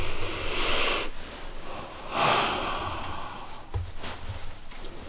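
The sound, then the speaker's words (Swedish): Deep breaths from a guest during an interview: a couple of long, airy rushes of breathing, moderately loud, with a fainter breathy stir later on and no speech over them. “Vad härligt med ett djupt andetag också.”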